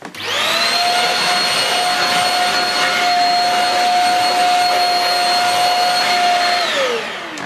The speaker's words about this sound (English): Might not get such deep down dirt just using this nozzle, but it's effective enough, and of course it makes the machine light.